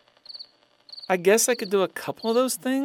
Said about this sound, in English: More than you hate listening to the cricket chirp?